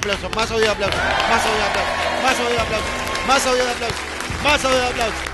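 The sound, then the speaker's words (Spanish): A crowd applauds and cheers as an applause sound effect, dense clapping running steadily throughout with shouting voices and whoops layered on top. “más audio de aplauso. Es recontra por ahí, con toda la emoción.”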